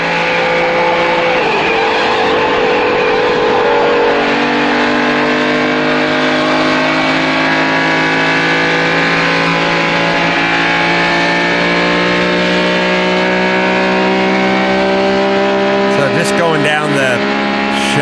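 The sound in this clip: A car engine drones as the car drives through Paris streets, climbing an on-ramp and running down the Champs-Élysées toward the Arc de Triomphe. The engine sound is loud and continuous, with its tone drifting gradually throughout.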